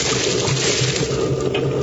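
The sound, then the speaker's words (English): Water boils in a pan with potatoes in it, giving a steady, loud, rushing bubble. The seething noise stays fairly even and unbroken throughout. “This pan is filled with boiling potatoes.”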